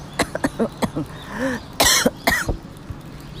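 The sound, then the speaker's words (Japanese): Coughing and throat clearing from a propolis candy stuck in the throat, a run of several short, rough coughs that build to a harder, louder burst before trailing off. “あ失礼舐めていたプロポリスの飴が喉に引っかかりました”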